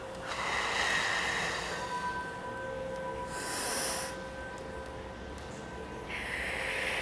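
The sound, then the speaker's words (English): Deep breath drawn and slowly exhaled from the diaphragm during a guided meditation, heard as soft airy swells of breath under faint steady ringing tones, with no talking. “Take a deep breath all the way from your diaphragm. Inhale, hold it for 4 seconds. And exhale.”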